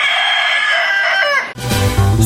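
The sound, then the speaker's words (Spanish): A fighting rooster crows one long, loud call with a strained harmonic tone lasting about a second and a half. It then cuts off abruptly into a different, denser burst of sound. “Señores, pongan cuidado, llegó el gallo de pelea.”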